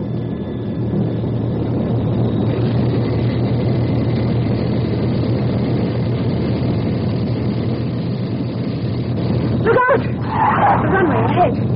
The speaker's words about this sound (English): We're set for takeoff.